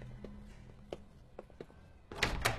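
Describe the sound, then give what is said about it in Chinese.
Door of a safe house opening: a few soft knocks and thuds, then a louder, brighter burst of door noise near the end. “安全屋的门刚一打开，陈默”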